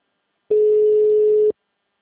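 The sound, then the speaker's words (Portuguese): A telephone ringback tone heard while a call is placed: a single steady mid-pitched beep lasting about one second, alone between stretches of silence. “Fazer ligação.”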